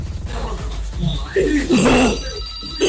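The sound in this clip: A telephone rings with an incoming call, its repeated electronic ring sounding alongside talking voices.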